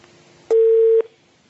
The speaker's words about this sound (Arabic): قطع اتصال.